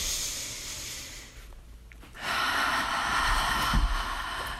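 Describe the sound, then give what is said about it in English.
Slow, deep breathing during a guided self-care exercise: a steady, airy hiss of drawn breath, a quieter pause near the middle, then another louder, sustained breath. “So let's begin by taking, again, a couple slow and deep breaths. Once more.”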